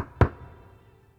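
Knocking on a palace gate: one sharp, solid knock with a short resonant decay into near silence.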